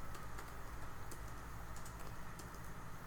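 Faint typing on a computer keyboard: light, scattered key clicks over a steady low hum, quiet throughout and with no talking.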